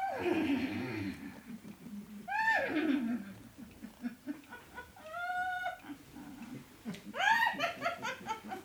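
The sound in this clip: A human voice imitates a mare neighing in a forest, producing four separate whinnying calls. Each call has a shaky, laugh-like vibrato and falls in pitch, with quieter gaps between the calls.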